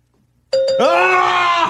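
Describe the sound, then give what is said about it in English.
A game bell rings once, a loud, bright tone that starts abruptly and holds steady with rich overtones before cutting off. “I know it for sure, so I'm going to have the bell ready if you got it.”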